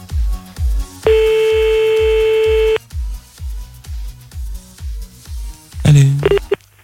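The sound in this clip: A telephone call cutting off: a single long steady electronic tone lasting under two seconds sits over a regular pulsing beat, which carries on after the tone stops, and a brief louder burst comes near the end.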